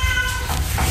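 A black one-year-old tomcat at an animal shelter's cat house gives one drawn-out harmonic meow that fades, partly masked by heavy low rumbling noise.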